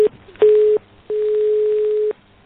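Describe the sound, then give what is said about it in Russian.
A telephone signal plays while a call is being placed from a phone in a transformer booth: low, steady electronic tone pulses, one short and then one longer, loud and clear with silent gaps between them. “Я сейчас звоню.”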